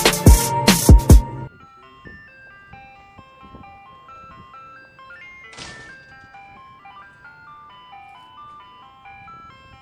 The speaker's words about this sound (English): I'm the ice cream man, this my song when I'm riding through.